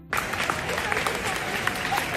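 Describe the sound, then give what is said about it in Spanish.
A crowd applauds royal guests arriving at a traditional parade. A burst of dense clapping starts abruptly and holds steady, with crowd voices faintly mixed in. “Pues así, con aplausos, han sido recibidos don Felipe y doña Leticia”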